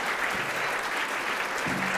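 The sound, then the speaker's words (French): Audience at a fan convention rises to applaud the guests, producing steady, dense clapping that holds at an even loudness with no breaks for the whole stretch. “On va les remercier et on va continuer la journée. Le public se lève pour remercier les guests.”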